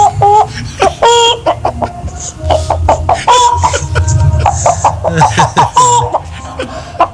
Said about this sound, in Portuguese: Eu nunca vi uma imitação de galinha igual